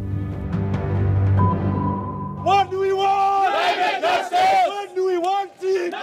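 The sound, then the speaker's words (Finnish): Protesters chant at the COP27 UN climate conference in Sharm el-Sheikh, demanding climate justice and aid for poor countries: a loud crowd shouts repeated phrases in unison, rhythmic and forceful, after a brief lower voice at the start. “Joukko mielenosoittajia vaati Sharm el-Sheikhiin YK:n 27. ilmastokokoukseen kokoontuneita maita oikeudenmukaisuuteen ja vauraita maita auttamaan rahallisesti ilmastonmuutoksesta kärsiviä köyhiä maita.”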